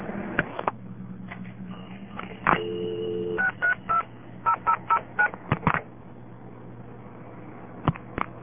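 Telephone dialing into a panel exchange office: soft clicks, a brief tone, then a run of short, evenly spaced tonal bursts and a few scattered clicks, all fairly quiet over a faint steady hum.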